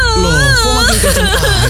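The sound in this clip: A person crying loudly and without pause, the voice a wavering, sobbing wail whose pitch wobbles up and down throughout.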